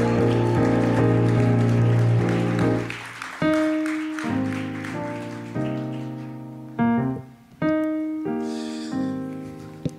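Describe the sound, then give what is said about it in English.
Audience applause welcomes two pastors to the stage at a church gathering. It is a dense, steady patter of clapping mixed with loud, sustained band music throughout, swelling and dipping as the chords change. “I want you guys to give me a hand in welcoming Pastor Brendan and Pastor Sharon to the stage.”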